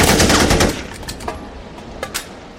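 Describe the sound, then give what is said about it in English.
Automatic rifle gunfire: a dense, rapid rattling burst lasting under a second, then a few scattered sharp cracks as the firing trails off. “Sounds like you're out. How many mags you got left? You got a license for that automatic rifle”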